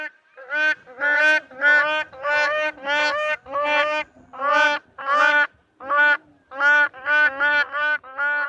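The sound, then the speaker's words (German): Black crowned crane calls: a long series of loud, hoarse, honking notes, each a short harmonic blast, repeated in a fairly steady rhythm with brief gaps, like a husky swan. “Es gibt da den Schwarzhals-Kronenkranich, einer von zwei Kronenkranicharten und wir hören uns mal an, wie der klingt.”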